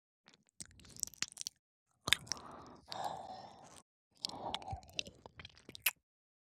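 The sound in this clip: Wet licking and mouth sounds on an ear, as sake is licked off it. Soft, slurping and smacking bursts come in a few uneven clusters separated by short silences, with no talking.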